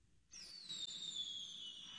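A firework whistles during a July 4th Independence Day fireworks show, a single shrill tone that slowly falls in pitch over a faint hiss and ends with a sharp pop.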